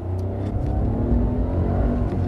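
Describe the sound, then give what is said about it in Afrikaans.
A Renault's 66 kW 900 cc three-cylinder turbo petrol engine accelerates with a steady, droning hum and a strong low rumble, continuous and fairly loud, with no voices. “Die 66 kW 900 cc 3-silinder petrol se turbo-aanjaer is effens traag om aan die gang te kom wanneer jy skielik vet gee.”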